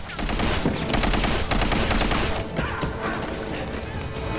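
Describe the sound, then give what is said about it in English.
Gunfire in a shootout between an attacker and guards around an armored vehicle with bulletproof glass: dense, rapid volleys of loud shots, nearly continuous, easing slightly in the second half. “Logan watches cravenly as Jack advances, shooting and disables the guard.”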